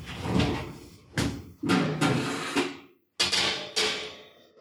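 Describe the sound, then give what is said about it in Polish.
Electric fan oven door being opened in a kitchen while bread tins go in to proof: a few sharp clunks and rattles, separated by brief gaps of near silence, with no voices. “I ja to robię w ten sposób, że wkładam te moje foremki do piekarnika, właśnie otwieram piekarnik”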